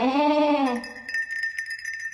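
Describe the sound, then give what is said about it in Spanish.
A sheep gives a single harmonic bleat that dips slightly in pitch, followed by faint, high twinkling tones. “Pero estas no son orejas. ¡Son ovejas!”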